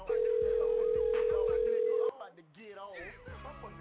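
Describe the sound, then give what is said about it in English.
A steady, unbroken telephone line tone sounds for about two seconds while a call is placed to a radio show, with voices beneath it, and the voices continue after the tone stops. “We're calling the Maximum Reality Radio Show.”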